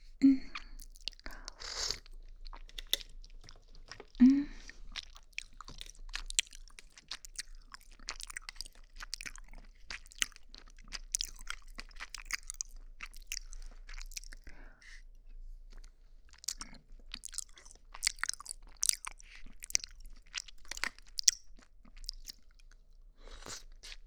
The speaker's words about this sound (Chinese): 我们来吃吃好不好呀？我吃一口，你吃一口，好不好呀？